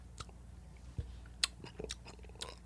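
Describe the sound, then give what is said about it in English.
Candy corn being chewed right into a microphone: faint, crunchy bites and moist mouth sounds, with a few sharper crunch peaks scattered across the stretch and no talk. “I'm chewing into the mic. It's fucking so gross. What? What? It's just the candy corn into the mic.”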